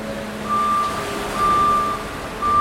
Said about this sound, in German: Unsere Kollegin Verena war unter anderem in der Sortieranlage, die ihr gerade im Hintergrund hört